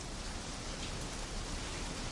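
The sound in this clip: Steady rain falling at night, a continuous even hiss with no distinct drops or pauses and no voices.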